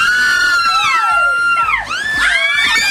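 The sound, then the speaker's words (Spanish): Excited, high-pitched screaming rings out nonstop, a loud stream of shrill squeals that sweep up and down in pitch. “Déjenme saco los gritos.”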